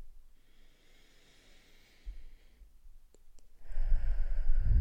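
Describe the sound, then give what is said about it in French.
A deep breath drawn in during a guided relaxation exercise: a soft, airy hiss lasting about two seconds. A few faint clicks and a louder breathy rush follow near the end. “Donc comme je disais, on prend une grande inspiration.”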